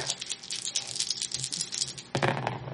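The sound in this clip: Dice rolled for a reroll in a Fate Core tabletop roleplaying game, a light, continuous rattling patter of clicks that swells into a louder burst of tumbling clatter near the end.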